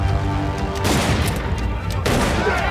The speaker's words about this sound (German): Sie schießen!